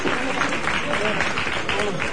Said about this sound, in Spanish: Y se hace el aplauso por el trabajo bien hecho.